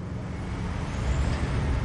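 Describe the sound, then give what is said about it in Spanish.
Government trucks drive past with a low, steady engine roar and road rumble that swells slightly toward the end. “Son camiones del gobierno. Los vi en YouTube en la purga del año pasado. Y van directos hacia la zona segura.”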